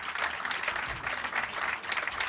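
Audience applause, a thick, steady wash of many hands clapping together, sustained at an even moderate level with small surges throughout.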